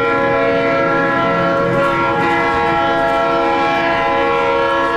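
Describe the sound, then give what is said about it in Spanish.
A train passes near Las Américas, its horn sounding a loud, steady multi-tone blast held through the whole clip over a low, rumbling rail noise. “Pues si no es el tren que pasa ahí por las Américas, tú.”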